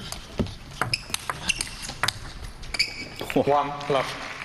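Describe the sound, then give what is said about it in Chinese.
A table tennis ball ticks lightly on a serve in a WTT European Grand Smash men's singles first-round match, a few sharp, crisp bounces over a quiet background, with some voice sounds near the end. “林诗栋来率先发球。”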